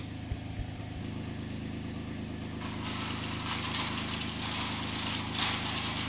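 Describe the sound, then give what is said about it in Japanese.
Heavy machinery lift rising inside a grape greenhouse. A steady, low engine drone hums throughout, and a brighter, hissy mechanical layer joins partway through and continues to the end. “重機に乗って、高さのあるところまで行きまして、そこでブドウをもぎ取りいたします。”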